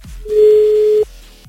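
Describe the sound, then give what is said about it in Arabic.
A phone call's ringing tone sounds as a single steady, mid-pitched tone lasting under a second and then cutting off abruptly, with quiet low thumps around it. “خلينا نشوف يا رب يرد. عم اتصل بحازم.”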